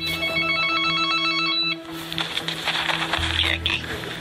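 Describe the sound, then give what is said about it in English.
A telephone rings with a steady, buzzing electronic tone for under two seconds, then stops and gives way to noisy clatter and rustling over a low hum. “all of them, 2 minutes later, the phone rings.”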